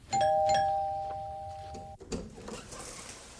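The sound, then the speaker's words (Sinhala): A doorbell rings with two bright chime tones that sustain and decay over about two seconds, followed by a dull thump and soft rustling. “මං දොරේ සීනුව නාද කරන්න.”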